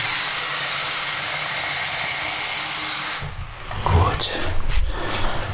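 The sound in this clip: A coffee machine brewing a coffee gives a loud, steady hiss and whir for about three seconds, then shifts to a lower gurgling rumble with uneven hissy bursts.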